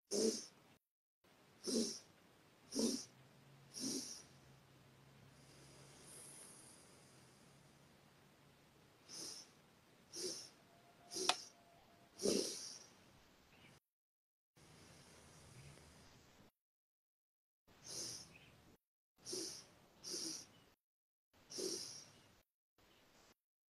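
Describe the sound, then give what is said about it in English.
Faint breathing during a guided breathing exercise: many short, breathy bursts alongside a few longer, steady exhalations, with no talking. “And then exhale out for about a minute.”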